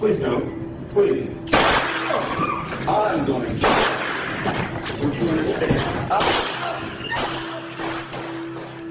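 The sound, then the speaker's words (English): Handgun gunfire during a board meeting, heard as several sharp, loud bangs scattered among frantic raised voices and commotion. “Clay Allen Duke fired his gun four times, standing only a few feet in front of Bill Husfeld.”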